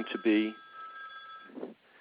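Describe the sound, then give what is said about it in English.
A telephone rings as a thin, steady electronic tone lasting over a second, faint beneath a person talking. “I just got a phone call, so I got to turn that phone off.”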